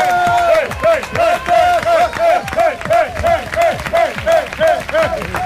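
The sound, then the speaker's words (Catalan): Studio audience applause mixed with whooping and shouting voices, loud and continuous, with a choppy, pulsing rhythm of repeated vocal bursts over the clapping. “Demano un fort aplaudiment.”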